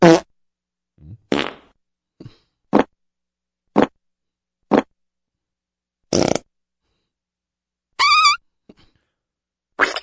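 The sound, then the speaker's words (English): Fart sound effects played from a sound effects computer: a series of short, blunt raspy bursts of varying length and pitch, separated by silence, with a few fainter, smaller ones in between. “I started searching around on this, we'll just call it a sound effects computer. Mm-hmm. There are banks of farts in here I didn't know I had.”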